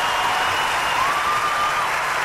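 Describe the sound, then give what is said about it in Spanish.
An audience gives steady applause to an Argentine popular musician, producing a continuous, even wash of clapping at moderate loudness with a faint cheer or whistle rising above it. “Fuerte el aplauso para vos, hermano.”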